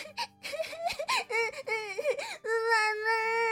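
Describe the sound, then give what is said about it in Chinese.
Voices imitate little crabs crying around their mother in a children's tale: broken, sobbing wails that waver up and down, then settle into one long sustained cry. “小螃蟹们。全都围着螃蟹妈妈开始大哭了起来。”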